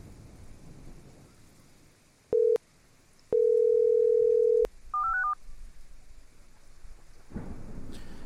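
A telephone dial tone plays: a brief tone, then a longer steady tone, followed by a quick run of keypad dialing beeps at rising pitches, loud and clear over a low background hiss.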